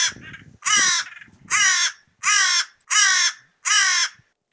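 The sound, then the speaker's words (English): Five loud, harsh crow caws sound in the morning, evenly spaced with short gaps between them, each a raspy call with no talk over them. “Is that a crow? Is a crow crowing this morning?”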